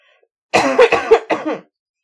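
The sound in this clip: Harsh coughing from tater tots stuck in the throat: a quick run of several sharp, raspy coughs packed into about a second, fairly loud and with no talking.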